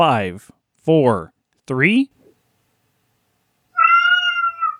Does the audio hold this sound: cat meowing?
yes

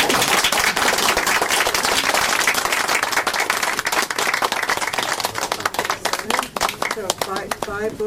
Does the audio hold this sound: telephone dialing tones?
no

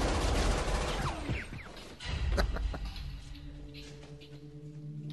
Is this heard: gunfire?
yes

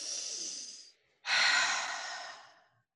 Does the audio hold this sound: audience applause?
no

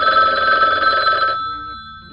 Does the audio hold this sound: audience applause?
no

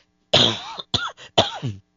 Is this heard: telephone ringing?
no

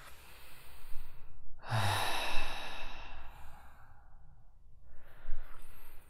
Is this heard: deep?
yes

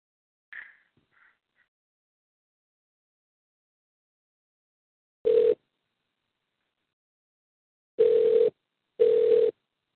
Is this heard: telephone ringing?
yes

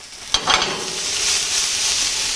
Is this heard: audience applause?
no

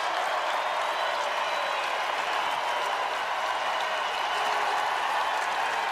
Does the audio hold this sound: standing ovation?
yes

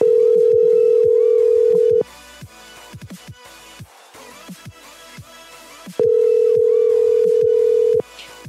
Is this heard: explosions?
no

